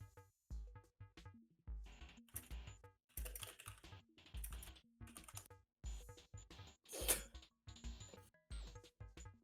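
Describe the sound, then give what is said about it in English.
Typing on a computer keyboard comes in irregular bursts of many crisp, clacking key taps with short pauses between runs. No voices are heard. “Type it, please.”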